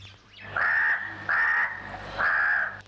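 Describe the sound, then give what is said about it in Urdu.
A crow caws three times, each a loud, drawn-out harsh call, with short pauses between them. “سارے کبوتر جال میں پھنسے ہوئے ہیں۔ کوا ان کے پاس پہنچا اور بولا،”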